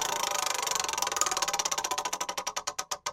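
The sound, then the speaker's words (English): A wheel is spun, giving rapid, steady ticking that gradually slows, the clicks spacing further apart and growing more distinct toward the end. “All right, so spin the first wheel.”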